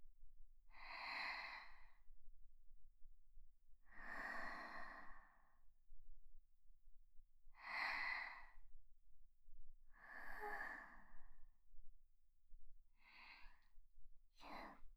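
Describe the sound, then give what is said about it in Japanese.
A man breathes deeply on instruction: a series of long, airy breaths spaced a few seconds apart over a faint low hum. “深呼吸して。”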